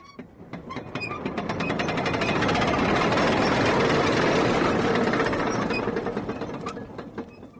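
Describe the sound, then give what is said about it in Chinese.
A factory gate opens with a loud, continuous mechanical rattle, like grinding gears or a ratchet. The clatter swells to a steady peak, holds, then eases slightly toward the end. “应该就是在工厂里面，打开大门进去吧。”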